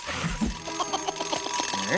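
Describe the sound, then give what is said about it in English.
A cartoon-style alarm clock bouncing across a hallway: a quick string of short tonal beeps and boings at shifting pitches, closing with rising gliding tones. “suddenly an alarm clock leaps out of his pocket. It bounces across the hallway, and the mask tries to grab it.”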